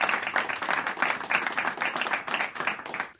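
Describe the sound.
Applause from a small studio audience in Studio 4A greeting a band: a dense, steady patter of many hands clapping that carries on evenly from start to end, with no talk over it.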